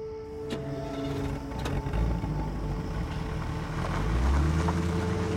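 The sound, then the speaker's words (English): A car's engine hums as it pulls away from a narrow street, a steady low rumble that grows slightly louder toward the end. “As he drives away, his right taillight turns off.”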